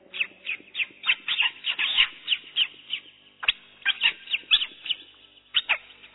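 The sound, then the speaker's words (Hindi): Many birds calling in the early morning, with sparrows chirping in quick, repeated bursts. The short calls overlap into a busy, steady chorus, and no one speaks. “पक्षी जग गए, चिड़िया चहक रही है,”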